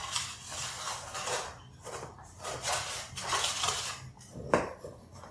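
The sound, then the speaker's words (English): A knife scrapes around the edge of a gluten-free hummingbird cake in its pan, making soft, gritty metal-on-pan strokes in an uneven run, with one sharper click near the end. “I'm going to cut around the edge.”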